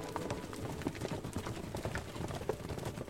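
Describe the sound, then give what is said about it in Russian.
Horses' hooves clip-clop faintly and steadily as riders travel on along a road, with many even beats in a continuous rhythm under low background noise. “И поехали богатыри дальше путем дорогою.”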